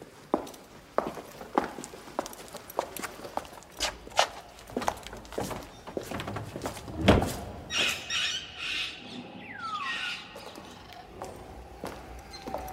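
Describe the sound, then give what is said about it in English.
Animals in a Sultan's menagerie: a run of steady footsteps for the first several seconds, then squealing, squawking calls including a sweeping cry, all fairly faint. “This is the menagerie. An oryx calf was born 2 days ago.”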